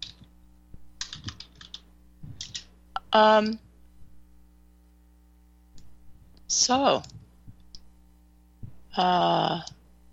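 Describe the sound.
Keys clatter on a computer keyboard in short, uneven bursts of light clicking, mixed with a few brief voice sounds.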